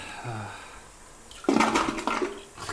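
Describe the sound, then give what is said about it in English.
A toilet flush as a sound effect: a quiet start, then a sudden loud rush of gushing water that carries on to the end. “I think that sound effect is in every episode. The toilet? Yeah, that toilet.”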